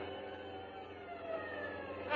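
Police car sirens wailing during a pursuit through downtown traffic: a steady, dense drone of overlapping siren tones, fairly faint, swelling slightly toward the end.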